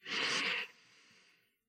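A deep breath taken during a guided breathing exercise: a strong, airy breath lasting over half a second, then a quieter, fading breath trailing off.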